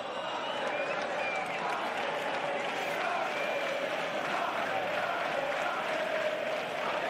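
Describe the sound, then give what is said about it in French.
Stadium crowd ambience played as a background sound effect during an online quiz game: a dense, continuous roar of applause and crowd noise, steady in loudness from start to finish. “On va mettre un petit fond sonore en attendant. Est-ce qu'il y a le stade?”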